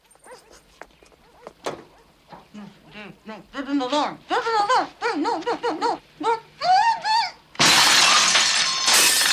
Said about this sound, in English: Having smashed a window in